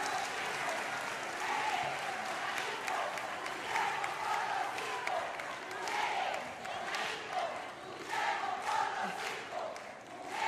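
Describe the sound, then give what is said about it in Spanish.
Crowd applause at a political gathering, a dense, steady clatter of clapping that stays loud throughout, mixed with crowd noise and shouts. “un aplauso a los cinco héroes prisioneros del imperio”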